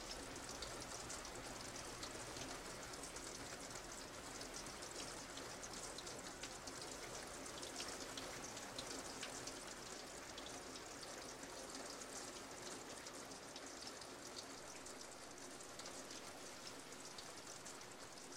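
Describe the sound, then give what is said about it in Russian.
Heavy rain runs down a window in a dense, steady hiss scattered with countless tiny droplet ticks. It stays even and unbroken throughout, with no voices. “Смотрит, как ливень стекает по окну.”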